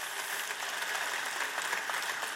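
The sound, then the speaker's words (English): Audience applause for teachers and parents: dense, continuous clapping, fairly faint and steady, with no talking over it. “Can we give them a big round of applause?”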